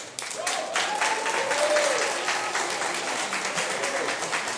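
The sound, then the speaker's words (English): Audience applause greets a group of young singers from the Young Bulgarian Voices choir, who are about to perform songs with a bagpipe. The clapping is moderate and steady and continues for the whole stretch. “with applauses our young singers from Young Bulgarian Voices. They will be singing songs with a bagpipe. Please welcome them.”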